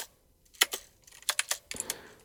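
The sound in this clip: Typing on a computer keyboard while writing a Markdown document: a quiet, irregular series of sharp key clicks, coming in small bursts with brief pauses between them.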